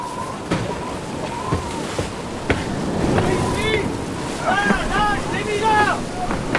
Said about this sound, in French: La mer balaye encore le pont.